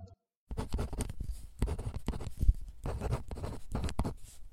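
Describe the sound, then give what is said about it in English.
Pen scratching across paper while writing, in irregular bursts of rough strokes and short pauses after a brief moment of silence at the start. “Back in a bit. Back to writing.”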